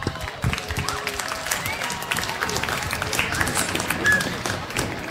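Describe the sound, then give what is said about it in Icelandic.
Audience applause at an evening festival: many hands clapping in a dense, uneven patter that holds at a fairly steady level for several seconds. “Eigum við ekki að klappa fyrir þessu frábæru fólki eða?”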